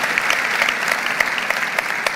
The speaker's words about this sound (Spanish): ¿Podemos darle un aplauso al Señor?